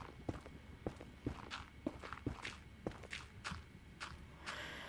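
A Minecraft character's footsteps tap out a long, even series of soft, regular steps with no pause, fairly quiet and without speech.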